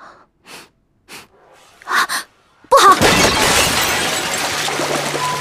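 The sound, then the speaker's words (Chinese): Eight water vats burst apart at once: a few soft sniffs and breaths, then a sudden loud shattering crash followed by continuous crashing and rushing noise that stays loud until the end. “话音刚落，便有8个水缸同时炸裂开来”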